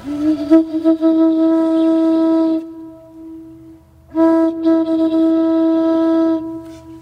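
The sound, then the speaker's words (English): Pipe organ with copper and wooden pipes sounding two long, loud sustained chords, the first easing to a softer held tone before the second swells in just as fully. “We have the innards of a pipe organ here, huge pipe organ, and they're over here. And so you have all of these copper pipes and these wooden pipes.”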